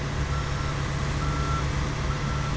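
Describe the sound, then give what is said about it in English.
Backup beeper on an asphalt dump truck reversing toward a paving loader, steady tonal beeps riding over a constant, broad diesel engine rumble. “He's got a fresh load of asphalt, also known as tarmac, and he's going to back up right to the loader, and they will continue on.”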